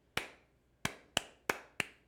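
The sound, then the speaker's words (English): Hand claps beat out a rhythmic pattern for students moving around a room: one sharp clap, a pause, then four quicker, evenly spaced claps, crisp and alone with no talk. “So if I clap to you,”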